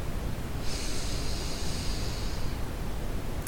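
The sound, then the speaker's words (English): A single slow breath, a soft airy hiss lasting about two seconds, barely standing out from steady background noise. “With each breath, let all your stress flow away. Breathe in”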